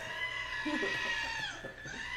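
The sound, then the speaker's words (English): Sheep bleating in a video game, sheep infected by a pox: wavering, nasal bleats rise over a constant buzzing, layered background hum, fairly quiet overall. “It's sheep. No. I guess... The pox have infected the sheep.”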